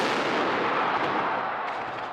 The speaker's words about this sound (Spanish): Tras dos años de silencio, el cañonazo que da inicio a la Semana Grande de Donostiarra ha vuelto a sonar con fuerza en Alderdi Eder.